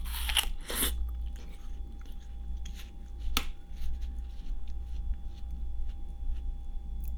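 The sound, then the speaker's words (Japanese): Someone eats fruit and bites down on its seed. A couple of crunchy bites come first, then quieter chewing and one sharp crack midway, all faint over a low steady hum. “種噛んじゃった。”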